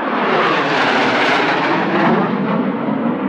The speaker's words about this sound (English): The two solo aircraft just did their sneak attack from the back of the show line.